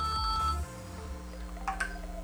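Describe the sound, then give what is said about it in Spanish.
A telephone signals an incoming call with steady electronic tones, faint and held, after a low hum fades out near the start. “Vamos a recibir una llamadita en línea.”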